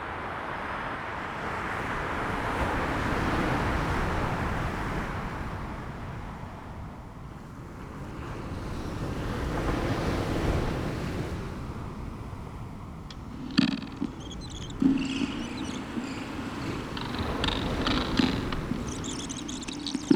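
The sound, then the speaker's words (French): A broad, low roar of motorway traffic mixed with sea waves at the shore, both far away. The wash rises and falls in slow cycles, with a few sharp ticks and clicks toward the end. “Le bruit de l'autoroute, le bruit de la mer, le bord de la mer.”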